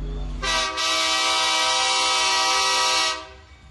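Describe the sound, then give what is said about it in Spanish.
Horn of a freight train that carries undocumented migrants: one long, loud blast with a steady, rich, buzzing tone that holds for nearly three seconds before cutting off, with low rumbling underneath. “Viajan en la bestia, como se le conoce al tren que diariamente transporta indocumentados a lo largo del país”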